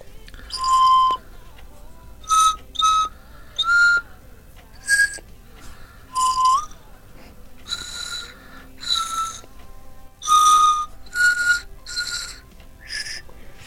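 Breathy whistle toots from a Melody Pup candy whistle as someone tries to play Yankee Doodle, with many short, uneven notes in a halting rhythm, heard alone.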